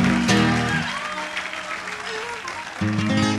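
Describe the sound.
An audience applauds to welcome a harmonica player, a dense burst of clapping that holds steady for a few seconds and swells again near the end.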